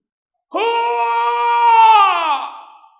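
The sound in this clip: A loud howl from a single voice, harmonic and wailing, holding a steady pitch for about two seconds before dropping and fading away.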